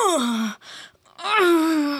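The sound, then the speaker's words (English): A man's voice imitates the moaning and groaning of someone straining through exercise reps. Two drawn-out, loud vocal moans are separated by a short break, and the first one slides downward in pitch. “He was like moaning and groaning every rep.”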